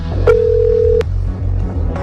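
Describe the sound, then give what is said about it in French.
A telephone call rings out to a home in a commune of the Hérault for a cash-card prize draw, heard as a single steady ringback beep of under a second over a low hum. “Ça sonne chez quelqu'un. Alors là, faut être bien près du téléphone. Ça sonne dans une commune de l'Hérault.”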